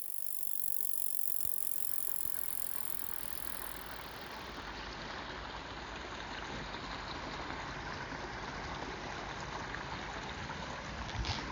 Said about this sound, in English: that sound of rushing water you hear is not any old waterfall. It's the sound of water rushing through a beaver dam at Ham Fen in Kent